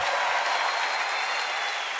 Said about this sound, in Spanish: ¡Fuerte aplauso, por favor!